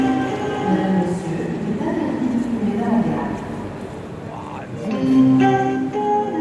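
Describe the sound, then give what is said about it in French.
Train station ambience at the Gare d'Austerlitz, a Paris railway station: a steady murmur of crowd and hall noise with tonal layers running throughout, a louder swell near the end, and voices talking within it. “Au croisement des gares. C'est la gare d'Austerlitz.”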